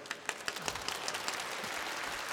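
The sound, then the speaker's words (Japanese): An audience applauds with a dense, even patter of many hands clapping. It stays steady and fairly faint throughout, with a few sharper claps standing out near the start. “まあ、ありがたいことに拍手してもらってますけど”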